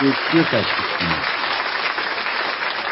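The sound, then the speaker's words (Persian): Audience applause rising after a short stretch of speech, a steady, even wash of clapping that carries on to the end. “تشویقتون میکنیم، دستتون درد نکنه”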